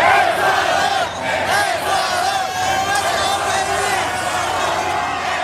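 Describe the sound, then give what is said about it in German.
Ecuador football fans in East Rutherford celebrate their team's 2–1 win over Germany with a dense, continuous roar of shouting and chanting voices, loud and steady throughout. “So klang das in der Nacht in East Rutherford bei New York. Die Fans aus Ecuador haben dort den 2:1-Sieg ihrer Mannschaft gegen Deutschland ausgiebig gefeiert.”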